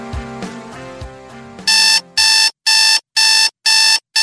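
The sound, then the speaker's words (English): An alarm clock rings as a wake-up call in loud, evenly spaced electronic bursts, a steady high buzzing tone repeated several times with short gaps, after a brief stretch of other tonal sound. “You know what that sound is? That's your wake-up call.”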